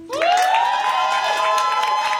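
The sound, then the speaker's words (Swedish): An audience at a live song-contest final cheers: a loud, sustained whoop rises sharply, then holds a steady pitch over crowd noise and scattered claps. “Ge en varm applåd för henne.”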